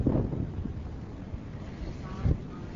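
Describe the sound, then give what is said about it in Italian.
Strong wind buffets the microphone beside a ship's engine room, a steady low rumbling roar with uneven gusty flutters at moderate loudness. “C'è un vento molto forte.”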